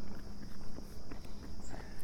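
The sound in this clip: Footsteps fall during a walking break from a run, a steady, even rhythm of many soft thuds on the ground.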